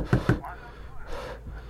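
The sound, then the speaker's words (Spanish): Two loud, low thuds from hard pounding on a wooden door come as a quick pair, followed by breathy, panting sounds. “Lo escucho golpear aún más fuerte contra la madera.”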